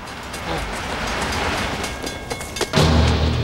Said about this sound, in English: Sam waits as a train passes the cemetery.